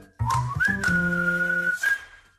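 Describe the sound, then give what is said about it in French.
A man whistles a store chain's advertising jingle, a brief, bright melody of a few clear notes that steps up, then holds a long, steady tone before a final short note, heard alone. “Ah, il sait même pas vraiment, ouais, il siffle juste.”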